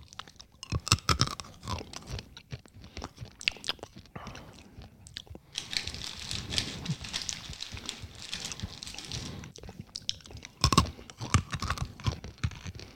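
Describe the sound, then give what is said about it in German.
Crunchy chewing of sugar-coated dried chickpeas, a Syrian sweet: many sharp, dry crunching and biting bursts, quiet and irregular, continuing throughout with no talk. “Knusprig. Innen drin was Mehliges, diese Kichererbse halt.”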